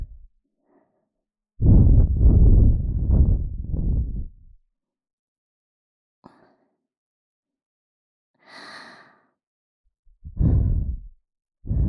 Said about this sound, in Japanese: 一度ふうふうしますね。